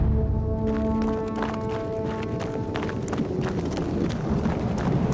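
Rapid running footsteps of a fleeing man chased by police: many quick, sharp footfalls in a fast, steady rhythm over a continuous low background.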